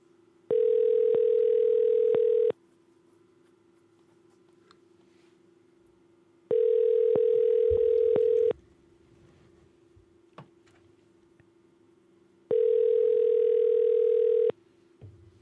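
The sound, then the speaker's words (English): Telephone ringback tone while a call waits to be answered: three steady buzzing tones, each about two seconds long, separated by roughly four seconds of near silence. The tones are fairly loud and heard alone. “we'll try a couple times because she seems to be one of these people that's slow at picking up the phone.”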